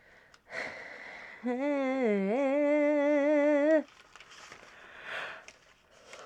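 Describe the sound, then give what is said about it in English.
A person yawns after finishing a session with one long voiced yawn lasting a couple of seconds. Its wavering tone dips in pitch, then levels off before stopping abruptly, with faint breaths before and after. “I'm yawning because I just did a session. I yawn to, like, release energy.”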